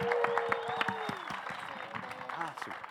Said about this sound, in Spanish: De verdad, un aplauso, por favor, para Estados Alterados, para Kraken, para La Derecha y para Terciopelados.